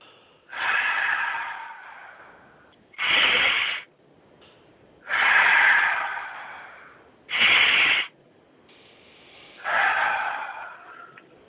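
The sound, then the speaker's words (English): Three slow, deep breaths taken as a guided breathing exercise. Each is a loud, airy rush of air, with shorter, sharper intakes between them and quiet pauses in a steady rhythm. No talking. “how about if you sat there right now and we did three deep breaths? Let's do that right now”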